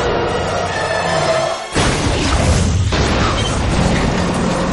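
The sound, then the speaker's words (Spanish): A tanker truck smashes into an articulated double bus and splits it in half: a sudden loud booming crash bursts in after a quieter lead-in, and a second crunching impact follows, then a sustained roar of wreckage. “Choca con un autobús de dos cuerpos al que parte por la mitad.”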